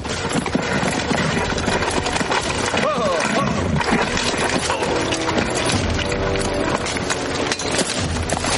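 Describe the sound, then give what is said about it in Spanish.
Hooves clip-clop as captors on horseback ride a captive woman along a stony path toward a ruined tower in a medieval adventure film. The steady, rhythmic hoofbeats sit amid dense music and voices. “Los raptores de Lady Ginebra la llevan cautiva cabalgando hacia la torre por un pedregoso camino.”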